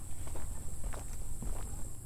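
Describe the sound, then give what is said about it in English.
Footsteps walk along a boardwalk through a forested wetland with dense vegetation, a quiet, evenly paced run of soft steps over a constant low background hum. “The boardwalk is really cool because you're walking over wetland that has really dense vegetation.”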